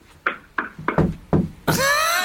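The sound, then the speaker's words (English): Banging on a floor or ceiling: several dull, loud knocks in an uneven rhythm, followed by a long, steady, bright tonal sound that runs to the end. “Now you bang on the floor. You bang on the ceiling.”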